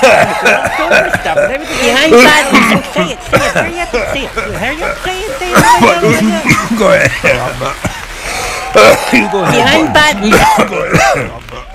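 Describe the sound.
Repeated coughing and throat clearing come in uneven bursts, mixed with chuckles and voices talking over them.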